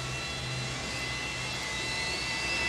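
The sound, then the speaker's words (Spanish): Airplane takeoff roar played as a nightclub's opening sound: a steady, broad, rushing jet noise with a low hum beneath, holding an even loudness and swelling slightly toward the end. “Como que el avión tomaba vuelo.”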